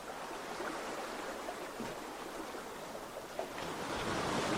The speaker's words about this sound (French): Le bruit de l'eau, toujours, qui vous guide et vous rassure.